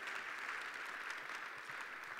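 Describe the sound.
Congregation applause welcoming a speaker to the front, a dense, even wash of clapping that holds steady throughout.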